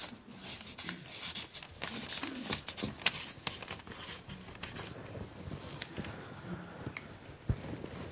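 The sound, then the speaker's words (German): A pen scratches out words inside a drawn circle in a run of quick, rasping strokes of uneven rhythm, with a few sharper taps among the steady scribbling. “Ich schreibe jetzt bewusst hier in den Kreis des Leibes lebendiger Stein rein.”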